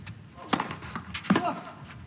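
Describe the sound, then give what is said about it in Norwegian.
Tennis ball strikes during Casper Ruud's serve in a tennis match: two sharp, hollow thwacks about three-quarters of a second apart, each rising briefly above a faint, steady background. “Ny god serv av Ruud.”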